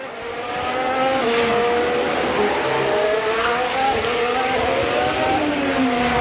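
A Formula One car lapping through a tunnel and braking at a chicane gives a loud, continuous high engine whine whose pitch shifts as it goes.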